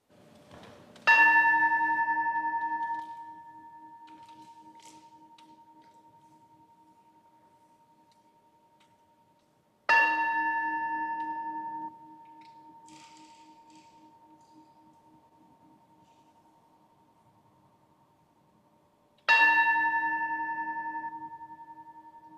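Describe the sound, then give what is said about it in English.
A bell rung to call people to worship is struck three times at slow, even intervals. Each clear, tonal strike rings out and then fades in a long decay before the next. “Take a deep breath and hear the sound of the bell calling us to worship.”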